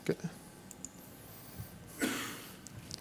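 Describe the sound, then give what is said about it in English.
Computer mouse clicks while opening a website's site settings: a few faint, sparse clicks scattered over quiet background, with one slightly fuller click about two-thirds of the way through and no talk. “So what I want to do now is click on site settings.”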